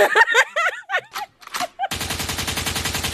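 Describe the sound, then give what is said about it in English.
A gunshot sound effect: a burst of rapid automatic gunfire follows a short stretch of speech, with many fast, evenly spaced shots running densely and steadily until the end. “Shots fired.”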